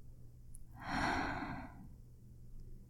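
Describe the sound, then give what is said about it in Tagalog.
One slow, airy deep breath swells and fades over about a second, soft and alone without talk, during a guided breathing exercise. “sumabay ka sa akin at huminga ng malalim. Inhale. Exhale.”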